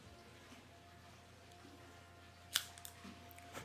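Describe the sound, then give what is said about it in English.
A La Gloria Cubana Spanish Press cigar is cut with a Cassetti combination guillotine and V-cutter, giving a faint, crisp single snip and a few tiny ticks after it over quiet background hiss. “Now let's give it a cut and test out the cold draw.”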